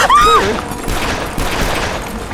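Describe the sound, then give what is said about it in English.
Gunshots from a short-barreled Colt revolver fired out of a window: a few sharp cracks over steady background noise. “I tried to shoot some of them off. Hit any? Not a one.”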